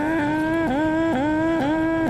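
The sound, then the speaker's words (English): A car alarm going off: a steady electronic whine that dips sharply in pitch and swings back up in a regular repeating pattern, loud and continuous with no voices. “Was that car alarm? That's the alarm that goes off.”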